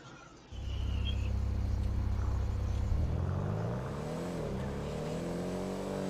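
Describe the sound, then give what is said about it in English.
Engine of a Schwarzer sports car driving in a video game, a steady droning rumble that revs, its pitch rising and dipping as the car climbs a hill, with no talk. “Should I drive my lifeguard emergency vehicle? Or should I drive my Schwarzer? I'm gonna drive my Schwarzer.”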